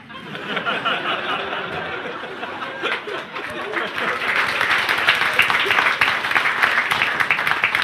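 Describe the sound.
Applause from the audience of a satirical weekly news show: clapping mixed with chuckles and chatter, growing fuller and louder partway through and staying strong to the end.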